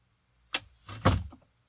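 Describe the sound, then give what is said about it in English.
A door swings shut: one sharp knock, then a louder sliding thud as it closes, brief and alone. “Oh, I just closed the door so we'd have a little more privacy.”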